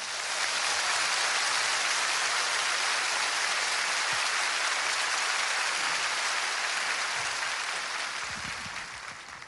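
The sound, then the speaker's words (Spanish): A church audience applauds in praise, making a dense, even wash of clapping that holds steady and thins slightly toward the end, with no voices over it. “If you believe it, give the Lord a praise offering. Si usted lo cree, dé un aplauso al Señor.”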